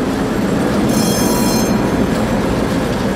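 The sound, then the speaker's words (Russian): Trams running on rails and parting at a junction: a steady, loud rumble of wheels on track, with a brief, high metallic wheel squeal partway through. “На развилке трамваи разъезжаются в разные стороны.”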